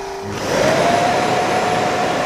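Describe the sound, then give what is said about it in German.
A robot vacuum cleaner at its docking station emptying its dust container: after a brief quieter moment the motor starts up with a loud whir and holds a steady, high whine to the end. “Der Staubsauger rollt die kleine Rampe zur Dockingstation empor, leert seinen Staubbehälter, überprüft den Akkustand.”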